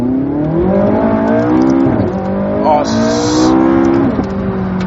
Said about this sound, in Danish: Og det bliver meget værre, når jeg trykker på active og begynder at give ned. Måske i, skal vi helt ned i første. Og så trykker jeg speederen helt i bund.